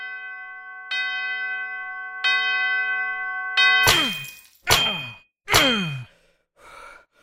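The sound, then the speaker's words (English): An old disused bell swings and rings out: three soft strikes with long, steady ringing partials, then three much louder, harsher clanging bursts with a falling pitch, each dying away quickly. “his glance caught an old disused bell that hung in the room, which, with great astonishment and dread as he watched, began to swing, softly in its outset that it scarcely made a sound, but soon it rang out loudly.”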